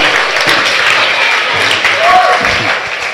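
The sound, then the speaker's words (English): Applause from a church audience clapping for the pastor: dense, steady clapping that continues at an even loudness through the whole clip, with no clear break or swell. “Clap for your pastor. Your pastor, they've tried. Clap for your pastor, they've”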